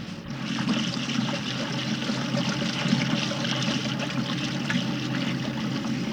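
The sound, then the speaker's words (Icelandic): A modern washing machine running with hot water in a steamy washhouse gives steady rushing, trickling water noise that stays even throughout, with no voices. “Og hér er ein kona með nýtísku þvottavél.”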